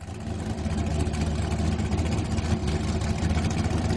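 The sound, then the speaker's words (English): An American gas-guzzler car engine needing a tune-up, spewing soot, runs with a steady, rough, loud rumble that keeps an even drone throughout. “All right, now that is the sound of an American gas guzzler. It sounds that needs a tune-up. Is spewing out soot and carbon emissions.”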